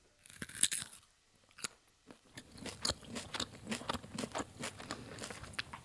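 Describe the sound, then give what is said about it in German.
Someone chews thin, crunchy slices of carrot, producing many quiet, crisp crunches in an uneven rhythm, with a short pause after the first bites before steady chewing resumes. “was machst du denn? Du isst ja unsere... Möhren auf.”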